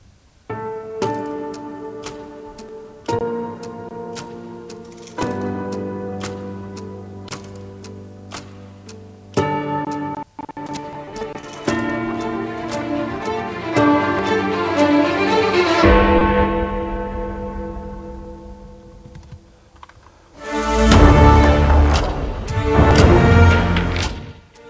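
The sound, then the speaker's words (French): Opening theme music of the adventure television series Around the World in 80 Days: an instrumental of sustained tonal notes over clock-like ticking beats, building in layers and swelling into a louder, fuller passage toward the end. “Le générique que vous entendez derrière moi, eh bien, il s'agit de celui du Tour du Monde en 80 jours, la série télévisée.”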